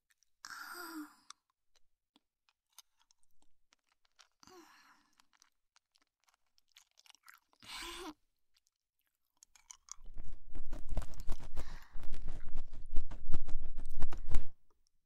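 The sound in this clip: Loud, dense crunching of a hard candy being chewed fills the last four seconds, after a few short, soft breathy sounds separated by silence.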